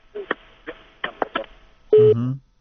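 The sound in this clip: Telephone sounds after a caller's line dropped: several short, irregular clicks and tone bursts, then one longer, louder tone near the end.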